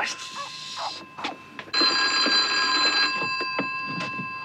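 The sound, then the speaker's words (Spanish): A telephone bell rings in one sustained, bright, metallic burst lasting over a second, with scattered short knocks and rustles before and after it. “¿Crees que debemos contestar el teléfono?”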